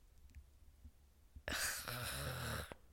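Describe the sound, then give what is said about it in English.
A woman yawns late at night: a long, breathy exhale with a low voiced moan that swells suddenly after a quiet stretch and lasts a little over a second. “sorry, I'm yawning. It's late. It's literally past my bedtime right now.”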